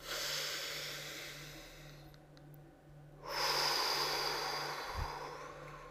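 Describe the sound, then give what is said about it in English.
A deep breath heard as two long, airy rushes of breath separated by a short pause, the second rush fuller and louder, with no speech over it. “Take a breath.”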